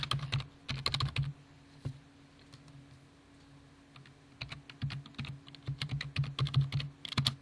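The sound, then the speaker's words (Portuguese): Someone types a password at a Windows 7 login on a computer keyboard. Quick bursts of plastic key clicks run for a couple of seconds, pause briefly, then resume in a denser, faster flurry. “No meu caso, eu tenho uma senha. Eu vou digitar essa senha aqui.”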